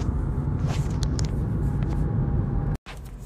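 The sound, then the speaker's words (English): Car driving, with a steady low rumble of engine and road noise that runs continuously. It cuts out briefly near the end and then resumes, with no talk. “As you can probably hear in the background, I am driving again, guys.”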